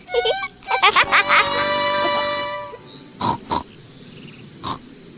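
Squeaky oinks and snorts of a cartoon pig in a children's animated adventure show, a quick run of short grunts followed by a few spaced, clipped snorts, with a sustained tonal sound between them.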